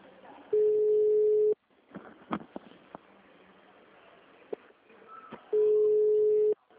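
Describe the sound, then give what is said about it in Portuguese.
An unanswered phone call rings out as two long, steady ringback tones, separated by a quiet stretch with faint background noise. “Oi, bem, não tá atendendo. Ó, chamando, não atende. Pode ver.”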